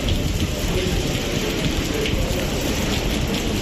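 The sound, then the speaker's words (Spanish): Steady rain pours over a city square in Santiago during blustery, unsettled weather, a dense, even hiss of falling drops that holds at an unchanging level throughout, with no voices. “Y así sonaba la lluvia poco después en el Obradoiro.”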